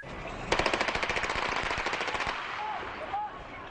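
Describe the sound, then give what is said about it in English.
Police fire on a hijacked bus, shooting out its tires in a rapid burst of many gunshots that rattle off in quick succession for about two seconds before stopping abruptly. “Police surrounded the bus, shot out the tires, and broke the windows with sledgehammers. After the shots were fired at the bus, the police stormed in.”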